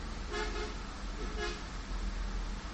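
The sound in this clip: A bus horn toots twice in short, bright honks over a steady low engine and road rumble.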